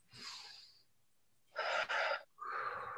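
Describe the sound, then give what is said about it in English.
A few deep, airy breaths are heard in a row. Each one is a breathy rush of air, and the middle breath is the loudest and fullest. “let's take a nice deep breath together here.”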